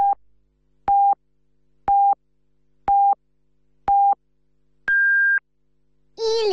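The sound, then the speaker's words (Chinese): A radio station's hourly time signal gives five short, identical mid-pitched beeps about a second apart, then a longer, higher-pitched final beep, all loud and clean against silence. “为您整点报时。 现在是北京时间14点整”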